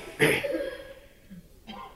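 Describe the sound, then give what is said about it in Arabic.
A man clears his throat once during a lecture on prayer rules. A short, rough burst is followed by faint voiced sound. “وإذا تنحنح وقال”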